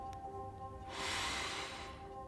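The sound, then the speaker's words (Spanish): A deep breath inhaled during a stretching routine: one long, airy, hissing intake lasting about a second, faint and soft, over a quiet steady tonal hum. “Como demostración, respiro un poco, mis ojos en los tuyos, antes de inhalar profundamente.”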